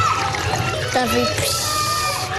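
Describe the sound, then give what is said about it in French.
Nursery-school children splash and spray each other during water play in a Paris schoolyard, with sloshing, splattering water under lively children's voices and talk throughout. “D'autres bambins s'aspergent allègrement.”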